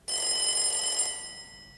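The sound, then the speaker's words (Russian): A doorbell rings as someone calls at the street door. It gives one bright, sustained metallic ring that starts abruptly, holds steady and then slowly fades, with no voices. “Кто-то звонит с улицы.”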